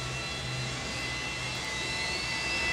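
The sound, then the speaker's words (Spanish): A jet airplane taking off, played as the opening sound effect of a nightclub's evening, gives a steady, even roar with a thin high whine held across the whole clip. “Como que el avión tomaba vuelo.”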